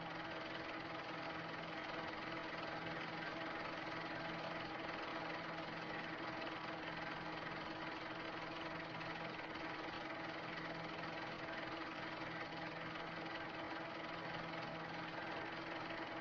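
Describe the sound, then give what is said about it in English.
A Wellington bomber's aircraft engine drones during a bomb-release test flight at Chesil Beach near Weymouth, a steady, unbroken engine hum with an even, faintly rattling texture. “Here comes the Wellington.”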